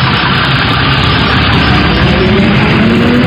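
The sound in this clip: A bus engine running as passengers board: a loud, steady, low idling rumble that holds throughout without a break, with no voices.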